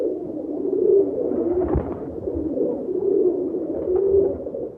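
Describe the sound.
A pigeon coos in low, throaty, repeated bursts that swell and fade in a steady rolling rhythm. The bird is a pet being cared for after a wing injury. The cooing is loud and clear, and no voices are heard.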